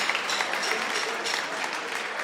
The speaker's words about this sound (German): Und einen großen Applaus auch noch einmal für Patrick Weinhäusler aus Neckenmarkt